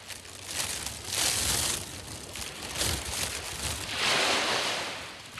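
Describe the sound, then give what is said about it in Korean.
Strong wind blowing hard: a broad rushing roar that swells and eases in several gusts, with no voices. “저 멀리서 영혼이 실려오듯 바람이 세차게 붑니다.”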